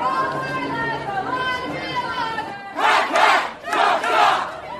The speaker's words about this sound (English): the call is "All my life, I want to be a logger," and the response is "Hack, hack, chop, chop."